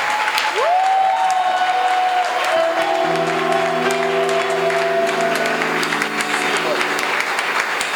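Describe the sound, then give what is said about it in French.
Congregation applause in a church service, dense steady clapping that continues for the whole stretch, with voices and held musical tones ringing over it. “Est-ce qu'on peut l'acclamer oh! Alléluia”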